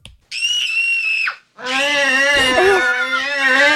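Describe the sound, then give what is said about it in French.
A piercing, high-pitched scream from a film scene comes in two bursts, a short shrill cry followed after a brief gap by a longer, wavering shriek. “C'est Drew Barrymore qui crie. Exactement, c'est la scène où il le découvre dans ouais, la c'est quand elle le découvre dans la chambre. Ouais. T'as ce cri aigu.”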